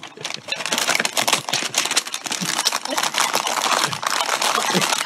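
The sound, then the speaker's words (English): A plastic comic book bag is crinkled up and shoved away, giving dense, loud, continuous crackling and rustling with sharp crisp snaps throughout and no pause. “I love how he crinkles it up and shoves it in the bag.”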